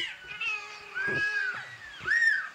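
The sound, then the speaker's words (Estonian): Very small kittens, eyes barely open, meowing in a few thin, high-pitched cries that rise and fall, each short and reedy, spaced out over a couple of seconds with quiet gaps between. “Väga väiksed. See on mingi laps ka juures. Need on väga väiksed kassid.”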